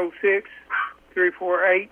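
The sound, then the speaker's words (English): A small dog barks over a phone call, giving a few thin, high yaps that sound narrow and band-limited through the line. “That little dog in there in the background was getting his 2 cents in.”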